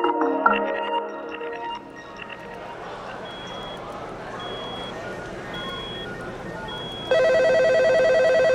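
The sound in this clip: Telephone dialling tones open a dramatised office scene, a quick run of keypad beeps followed by faint, evenly spaced beeps, then a loud, sustained electronic ring bursts in near the end.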